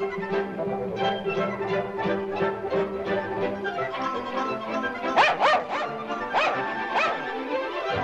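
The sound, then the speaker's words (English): Dogs bark while chasing, one a black Scottish Terrier, with many quick, yappy barks in a busy run, then a few sharper, louder barks near the end. “The black Scottish Terrier is there. The black dog runs to the hole under the fence, and Asta chases him.”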